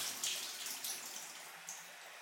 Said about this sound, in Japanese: 温かいお湯で皮脂を落として、きれいにさっぱりと。